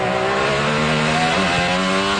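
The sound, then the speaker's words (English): An IndyCar race car screams around the Detroit street circuit, its high-revving engine a loud, steady, buzzing roar with strong harmonics held throughout. “That's driver Kyle Kirkwood ripping his IndyCar around Detroit back in May.”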